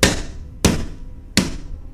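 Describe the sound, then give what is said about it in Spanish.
Three sharp pistol shots at fairly even intervals, each a loud crack that fades into a short ringing tail, with nothing else heard. “y le disparó varias veces, dejándolo malherido en el suelo”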